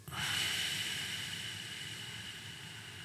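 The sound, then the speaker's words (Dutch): A slow, drawn-out breath through the nose as part of a counted breathing exercise, heard as a steady airy hiss that starts abruptly and holds for about three seconds, with no talking. “je ademt in gewoon door je neus. Ja, laten we zeggen vier tellen. Ja. Zeven tellen uit.”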